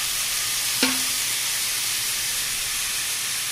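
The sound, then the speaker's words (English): Flank steak marinated in balsamic vinegar, olive oil and lime juice sizzles as it pan-sears on a stove, giving a steady, loud hiss throughout, with one brief short tone near the start. “I like to pan sear it because it gets the crust.”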